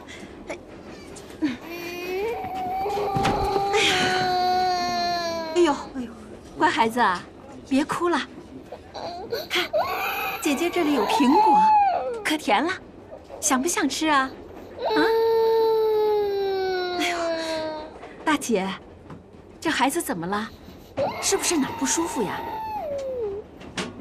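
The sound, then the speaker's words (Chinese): A baby cries in several long, wailing bursts with strained, shifting pitch. The infant is unwell and has refused food and water since morning. “哎呦，乖孩子啊，别哭了”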